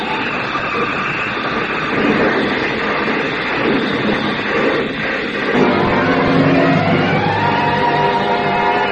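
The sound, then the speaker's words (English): A flashy convertible skids on gravel and slides sideways toward a cliff, heard as a loud, unbroken rush of noise with a heavier low rumble thickening its second half. “She jerked the car away from the pavement and steered straight at it. I grabbed the wheel and pushed it. The car skidded on gravel and slid sideways toward the cliff.”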